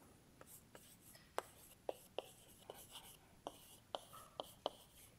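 A hand writes out notes during a physics lecture: many quiet, short scratching strokes and taps in an irregular rhythm, with a few sharper ticks standing out.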